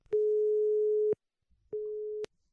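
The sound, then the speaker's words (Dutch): A telephone line tone sounds while a call is being placed: two steady, mid-pitched electronic beeps, the first lasting about a second and the second about half as long, separated by a short silence. “Dus ik ga even bellen met Elko van Koten”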